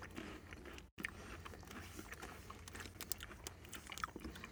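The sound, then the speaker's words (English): Chewing on a wasabi-flavoured Japanese snack, slightly melty, heard as faint crunching and mouth noises over a low, steady hiss. “That is certainly one of the most bizarre things I've ever tasted. I don't know what that is, I just ate.”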